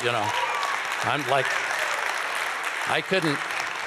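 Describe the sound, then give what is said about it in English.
Audience applause during a church testimony about Jesus Christ bringing freedom, a steady, dense patter of clapping that runs throughout while a person keeps talking over it. “You can clap for that if you want.”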